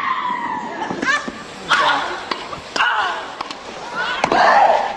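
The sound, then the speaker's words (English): A tennis player grunts while hitting the ball. Several loud vocal grunts come with sharp, snapping ball strikes in an uneven rhythm. “Monica Seles was said to be the first women's tennis player to grunt, but these days grunts are issued by Maria Sharapova and Serena Williams.”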